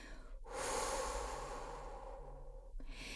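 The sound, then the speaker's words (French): A slow exhalation through the mouth during a relaxation breathing exercise: one long, steady, airy breath lasting about two seconds, quiet and alone, with another breath beginning just at the end. “Retenez l'air deux secondes, puis expirez par la bouche”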